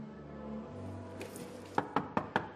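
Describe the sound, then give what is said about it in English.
Four quick knocks land on an apartment door, sharp, hollow raps in an even rhythm that come late, after a low, steady hum. “She listens at the door, then knocks again.”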